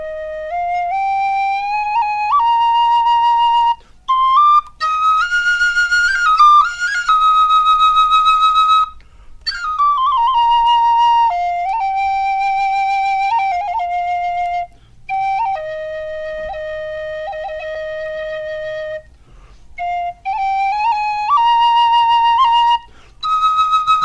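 A solo flute plays a lilting folk tune, clear high sustained notes stepping up and down in phrases separated by short breath pauses, with no other instruments.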